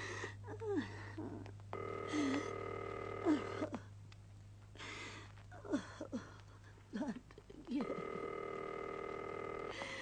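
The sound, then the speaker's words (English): A telephone is dialed for a long-distance call, with faint sustained tones in two stretches and short clicks and bits of voice between them over a low steady hum. “I'll phone the lieutenant governor's office.”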